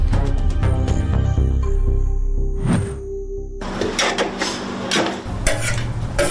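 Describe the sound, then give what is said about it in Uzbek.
Uzbek plov (osh) cooks in a pot with stirring, scraping utensils and clattering metal. Steady sizzling frying noise takes over in the second half. “Bu yerda faqat osh pishirasizlarmi yo boshqa nimalaring bor? Osh pishiramiz.”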